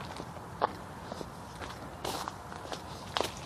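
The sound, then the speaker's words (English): Footsteps of a runner passing by: a few soft, irregular footfalls over a steady low background hiss. “I think I came by that guy earlier in his run. He's out here yesterday.”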